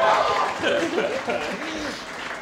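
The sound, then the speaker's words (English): Cheering and clapping from a live audience at the opening of a first live show, loudest at the start and thinning as a voice begins talking over it. “I am so glad you cheered, because I didn't have a plan for if you didn't.”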